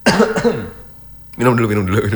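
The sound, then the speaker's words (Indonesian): A radio host coughs in two short, harsh bursts, then after a brief pause a voice talks. “batuk nih”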